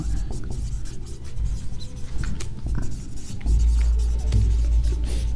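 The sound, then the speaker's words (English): Writing by hand makes continuous scratchy, rubbing strokes at a steady pace over a low hum that deepens partway through, with no talking. “Let me write them.”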